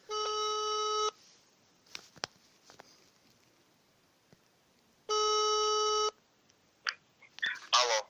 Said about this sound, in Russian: набираю ему сейчас